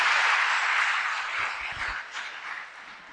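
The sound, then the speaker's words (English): Church audience applause after a prayer at a service, a broad steady wash of clapping that thins and softens slightly over its length. “Put your hands together, you may be seated.”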